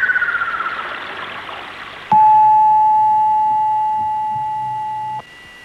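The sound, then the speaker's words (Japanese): A noon time signal on a Japanese radio station: a quick series of faint, rapid pulses with a slightly falling pitch, then one long, steady, high beep of about three seconds that cuts off sharply. “マイカースプレーのロイド商事が正午をお知らせします。”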